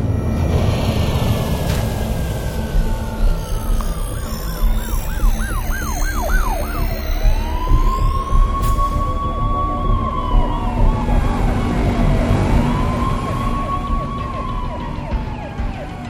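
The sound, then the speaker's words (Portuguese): Several police car sirens wail and sweep up and down as they converge on a city. The sirens are loud and overlapping above a constant roar of traffic noise. “vocês ouvem ao fundo e até veem nas alturas da cidade carros de polícia convergindo para os acessos da Cidade Alta.”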